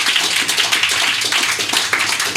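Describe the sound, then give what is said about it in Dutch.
Audience applause rises for a guest as a thick, continuous crackle of clapping. It stays loud and even across the short span, with no voices standing out above it. “Mag ik nogmaals een applaus voor Juliaan Galavasi.”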